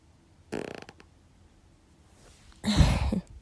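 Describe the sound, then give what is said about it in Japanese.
A fart: a short, buzzy fluttering burst, then after a quiet pause a louder, rougher burst. “あよー、おなら多分出るんで出します。”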